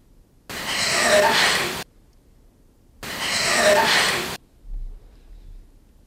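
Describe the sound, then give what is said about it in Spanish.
Laboured, raspy breathing in a paranormal voice recording: two long, harsh breaths, nearly identical, separated by a stretch of silence, sounding as if someone struggles to breathe. “escuchamos de nuevo esa respiración que, por cierto, parece es que alguien que está, no sé, respirando muy mal.”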